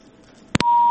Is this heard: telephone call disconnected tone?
yes